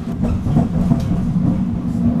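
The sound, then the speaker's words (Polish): Riding inside an NF6D tram: a steady, loud, low rumble with light rattles and clacks running through it, with no voices. “I biegiem zdążyłem do tramwaju NF6D i zaraz sprawdzimy, jaka w nim panuje temperatura.”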